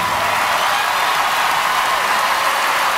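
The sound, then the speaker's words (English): Applause from an awards-show audience: a dense, steady wash of clapping that holds at an even level for the whole stretch, with no single claps standing out. “And Common was clapping. And Adele's clapping.”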